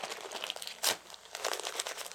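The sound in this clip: Crinkling of a baby's diaper being taped up: soft papery crackles with one sharp tearing rip near the start, fairly faint, with no voices.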